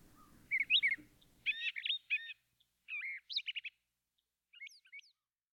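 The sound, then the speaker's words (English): Fragments of bird song: a few short bursts of high chirps and twittering trills, separated by brief silences, fairly faint. “Now the question is, what can you hear when you slow these bird sounds down?”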